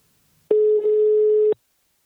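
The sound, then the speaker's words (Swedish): A single steady ringing tone sounds as a telephone call is placed. It holds one even pitch for about a second, then stops, with nothing else around it. “Jag slår en pling till VD Thomas Müller som får sammanfatta året på Invacare.”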